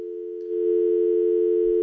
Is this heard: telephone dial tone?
yes